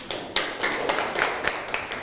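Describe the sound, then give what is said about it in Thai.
Applause from a class clapping for classmates who have just presented, a dense, steady patter of many hands with a few sharper individual claps standing out. “นั่งลงครับปรบมือให้เพื่อนหน่อย”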